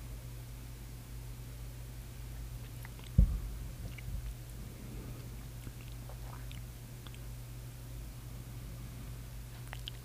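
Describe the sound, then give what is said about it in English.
A sip of Yellowstone American Single Malt whiskey being tasted: one short, sharp mouth sound, then a few faint wet mouth noises over a steady low hum. “Here, let me take another little taste.”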